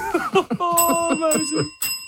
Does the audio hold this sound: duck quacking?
no